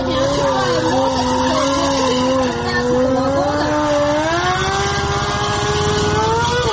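Motorcycle engines revving at the official opening of motorcycle season in a capital city, forming a loud, continuous droning roar whose pitch wavers and climbs in the second half.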